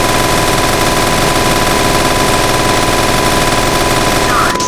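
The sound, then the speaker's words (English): Rapid, sustained gunfire from a fighter aircraft's guns in a jet combat video game, loud and dense throughout, a continuous harsh rattle with no pauses and no talk over it. “I'm gonna just blow him up with the guns.”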